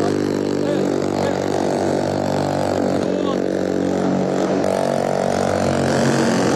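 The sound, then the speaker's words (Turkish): Engines of two attack boats carrying commandos approach during a hostage-rescue demonstration, a loud, steady, continuous drone that holds throughout. “SAT komandolarını taşıyan iki atak bot alana geliyor.”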